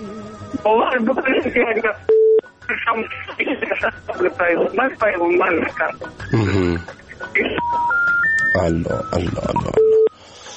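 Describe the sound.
A phone call breaks up and disconnects: a garbled voice on the line is cut by short electronic beeps, then a stepped sequence of tones rises in pitch before the line goes dead.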